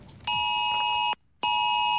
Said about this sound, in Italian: Inizia così, preceduto da un inconfondibile segnale sonoro, un messaggio irrompe contemporaneamente sugli schermi di smartphone e TV. È l'Amber Alert